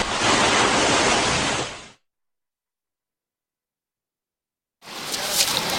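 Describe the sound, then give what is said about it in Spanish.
Waves break on a beach at the seashore as a steady, full surf roar that cuts out completely for about three seconds and then returns at a similar level. “Bienvenidos, bienvenidas a la playa que se oye en la radio.”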